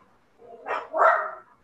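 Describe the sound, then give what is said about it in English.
A dog barks twice in quick succession, two short, moderately loud bursts rising out of a quiet background. “I thought I was gonna be the one with the dogs in the background because Oreo been acting up today.”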